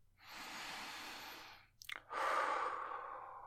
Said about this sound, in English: Now, take a few deep breaths. Do it with me.